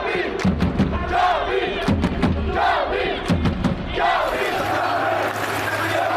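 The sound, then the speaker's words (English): Esports fans at the Esports World Cup chanting and roaring in unison, like football ultras. Loud rhythmic bursts of many voices rise and fall, with a few heavy thumps beneath. “I wasn't joking when I said the noise in here was like a football match. Just to listen to that atmosphere.”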